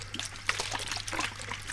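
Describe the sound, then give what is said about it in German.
A small trickle of water runs along a riverbed, a faint, steady bubbling and dribbling over a low, constant hum. “das ist jetzt, das ist ein Rinnsal, ne? Ist ja noch nicht so aufregend.”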